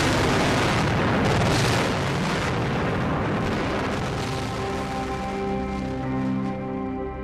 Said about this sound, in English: We can tell you that several areas in Iraq have been hit. Baghdad tonight, under heavy bombardment, on the day the war started.